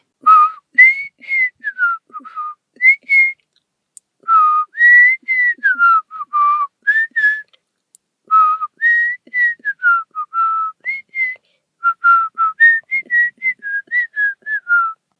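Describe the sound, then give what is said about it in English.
A person whistles the catchy Viagra commercial jingle alone. The melody is clear and bright, made of many short notes grouped into repeating phrases with brief pauses between them. “if I knew how to play a flute, I would actually like play that rhythm for you in a flute, but all I could do is whistle it.”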